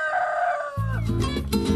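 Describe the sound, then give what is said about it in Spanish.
A rooster crows once, a brief harmonic call that slides downward in pitch, followed by a low, rough rumble of noise. “Ojito que eso es un gallo”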